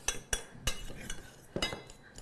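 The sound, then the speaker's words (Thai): A metal utensil clinks and scrapes against a bowl while mixing bibimbap of rice, sesame oil, pork, gochujang, kimchi and a fried egg. Several sharp clinks come at an uneven pace over soft stirring noise. “มาคลุกเคล้าส่วนผสมให้เข้ากันเลยค่ะก่อนการเสิร์ฟนะแค่นี้เองค่ะเราจะคลุกเคล้าจนกระทั่งเรามั่นใจว่าตัวน้ำตัวเกลือค่ะเขาเริ่มละลายแล้วนะเข้ากันแล้วนะคะ”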